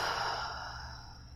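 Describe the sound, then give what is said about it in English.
Breathing during a guided relaxation exercise: one long, soft, airy breath that slowly fades, heard alone with no talk. “Then take a deep breath in, And a long breath out.”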